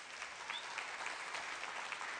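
A church audience claps after a fund-raising pledge announcement. The clapping is faint, steady and evenly textured, sustained from start to end with no voices above it.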